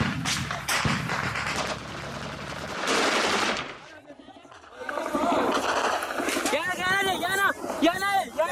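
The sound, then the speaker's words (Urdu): Heavy gunfire and shelling ring out during an armed assault on military barracks, dense and loud, with a brief lull before the firing resumes. Shouting voices rise over the final stretch. “بیرکوں سے جوابی کاروائی کے طور پر بھاری گولہ باری ہوتی ہے۔”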